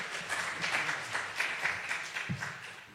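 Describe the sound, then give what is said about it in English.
Applause from a church audience for its music team, a steady, fairly faint wash of clapping that continues throughout. “welcome to our service with uplifting music by our music team. Let's give them another hand.”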